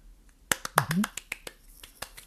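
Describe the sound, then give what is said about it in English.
A teacher's quick hand claps for a focus warm-up: many sharp claps in an uneven, fast rhythm, with a brief voice heard among them. “So I'm gonna clap, right?”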